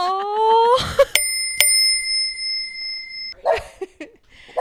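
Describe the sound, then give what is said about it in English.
A bright bell of the bicycle type rings twice in quick succession, each strike leaving clear, high tones that hang for a couple of seconds. Short voiced sounds come before and after the rings. “every time I hear a bell, I'm going to just go,”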